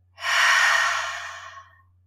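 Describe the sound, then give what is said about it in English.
Deep breathing during a guided breathing exercise: one long, airy, breathy rush that swells quickly, holds, then slowly fades over about a second and a half, alone with no talking. “so everybody take a big inhale through your nose. Giant releasing exhale out your mouth.”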